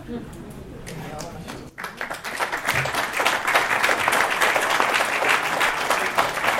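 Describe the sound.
Applause from an audience: dense crowd clapping that pauses briefly, then returns stronger and holds at a sustained, loud level.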